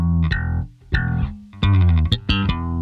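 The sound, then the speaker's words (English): Slap bass played on an electric bass: a run of punchy, percussive notes with sharp popping attacks and ringing low tones, some quick clusters packed close together, played alone and loud. “Namely, slap bass, a well-known style of playing”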